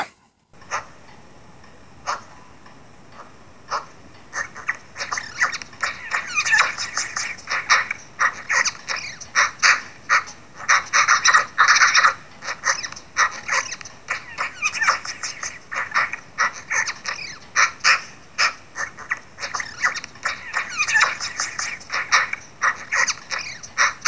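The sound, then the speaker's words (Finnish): A magpie chatters in Kainuu, Finland, giving many dry, rapid rattling clicks in uneven bursts that go on steadily and loudly throughout. “Ja tämä on tehty Kainuussa ja uskokaa tai jälkeä siinä on äänessä harakka.”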